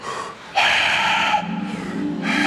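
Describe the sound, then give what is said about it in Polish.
A loud, forceful breath blown out with the tongue pulled back, done as a group breathing exercise: a long, noisy, hissing exhale that dips briefly midway, then continues strongly to the end. “I bardzo głośno dmuchnąć, przesuwając język do tyłu. W taki sposób.”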